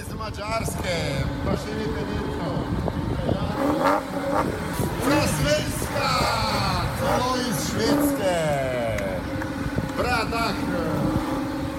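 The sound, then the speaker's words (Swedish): Porsche cars driving through the town of Bled in a parade, a steady, continuous engine rumble with occasional revving, while an announcer's voice presents the participants over the motor noise throughout. “Här är ett ljudklipp när vi åker igenom paradstaden Bled med speakern som presenterar oss från Sverige.”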